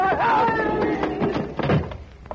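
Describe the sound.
A door slams shut as a man is thrown out of a diner, landing as a dull thunk under overlapping voices.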